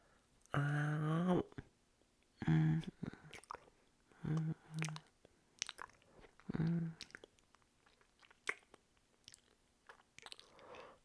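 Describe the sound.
Wet biting, slurping and chewing sounds of a vampire feeding on a neck, broken by several low hummed moans and scattered soft clicks, all quiet and close.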